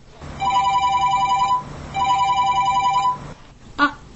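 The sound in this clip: A telephone rings as a teacher calls a student: two long electronic ring bursts separated by a short pause, then a brief sharp click as the line is picked up.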